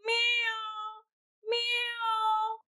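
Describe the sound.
A voice imitating a cat crying out excitedly with all its might: two long, loud drawn-out meows with strong harmonics, separated by a short silence.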